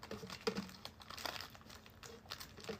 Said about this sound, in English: I knew that was the pack, man, because it was hard to open. I was like, this is it. It's too hard to open.